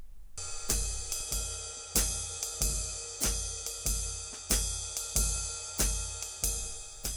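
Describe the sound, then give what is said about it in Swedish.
A swing rhythm played on a drum kit's ride cymbal: many bright, ringing strikes in a steady lilting long-short pattern, each one shimmering briefly before the next, with no other instruments or voices. “kanske hör man det enklast på trummornas ride. Som låter så här någonting.”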